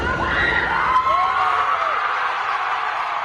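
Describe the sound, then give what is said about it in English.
Supporters outside a suburban Boston courthouse cheer a woman's acquittal in her second-degree murder retrial, a continuous swell of shouts, whoops and raised voices from the crowd. “Supporters of Karen Reed cheered her acquittal in her retrial on charges of second-degree murder.”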